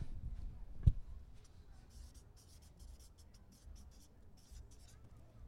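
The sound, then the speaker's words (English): Faint, scratchy pen-on-paper strokes as notes are taken during a talk on youth work and mental health. Soft, irregular rubbing scrapes continue throughout, with one low thump near the start. “Let's write this down.”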